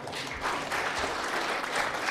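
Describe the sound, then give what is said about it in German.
Audience applause for two participants at a live stage event, a dense, steady clatter of many hands clapping that carries evenly through the whole stretch. “Erstmal einen Applaus für die beiden.”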